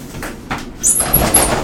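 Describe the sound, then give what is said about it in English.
An animal bumps its head into a door while trying to come in: a few dull thuds and rattles with a brief high squeak, moderately loud. “She's fucking ran her head in the goddamn fucking door. She wanted to come in.”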